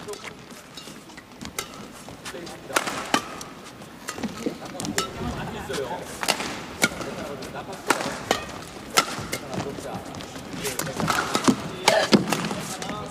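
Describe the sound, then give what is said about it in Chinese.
Table tennis rallies with Tan Ning serving and Ding receiving, many crisp clicks of the ball off rackets and table in quick bursts, with a commentator talking over the play. “现在是谭宁发球啊，丁大接发球。”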